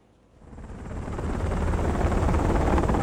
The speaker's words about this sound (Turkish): Peki helikopterden su atmak etkili olabilir mi?